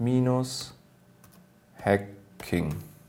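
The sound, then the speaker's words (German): Keys tapped on a computer keyboard while text is typed on a PC running a keylogger, a few scattered clicks between louder tonal bursts. “Und um das zu verdeutlichen, schreibe ich jetzt einfach Chat gpt-hacking.”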